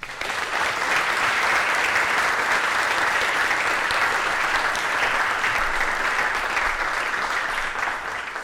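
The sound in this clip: Audience applause welcoming a lecturer at an Oxford lecture: dense, even clapping from many hands, steady and loud from start to finish without a break or talk.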